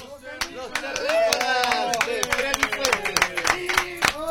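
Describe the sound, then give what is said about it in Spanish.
Scattered handclaps from a small group gathered in a radio booth, sharp separate claps quickening into a steady patter over several seconds, mixed with talk. “yo quiero que provoquen ese aplauso y que se escuche”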